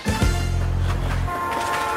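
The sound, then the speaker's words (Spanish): Diesel test train on its first stretch of track starting up: a loud, low droning tone with steady harmonics holds for just over a second, then gives way to a rougher, rolling rumble. “ahí está el trenecito del presidente que pues arranca y arranca, lo quiere hacer arrancar”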